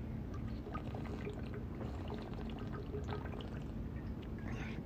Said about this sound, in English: So let me take a little drink of water here.